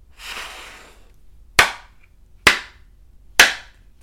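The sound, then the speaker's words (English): Tarot cards from a Heaven and Earth deck being handled: a soft rustling shuffle at first, then three sharp, evenly spaced slaps or taps of the cards. “So I have the Heaven and Earth tarot cards here. Let me go ahead and pull the Oracle card first and see what we have.”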